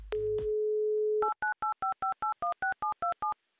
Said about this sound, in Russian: Я думаю, что по всем канонам, по всем правилам мы можем ей еще раз позвонить. Давайте попробуем.